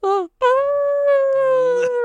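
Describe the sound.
A wolf hybrid dog howls in clear tonal notes: a short howl, a brief pause, then a long, steady howl held at an even pitch.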